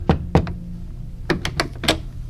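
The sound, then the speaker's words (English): Knocks on a wooden door of a house at the edge of the projects, in two short bursts: about three dull raps, a pause, then a quicker run of four or five knocks, with no voices. “All the way there, doubt bombarded me, but I kept walking and knocked on his door.”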